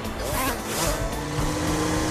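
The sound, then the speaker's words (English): Cars speed past in a chase through a park, their engines roaring loudly and continuously with a swell as a vehicle rushes by. “cars enter the park and continue after the scooters. The vehicles blow past the cart as it rolls down a hill.”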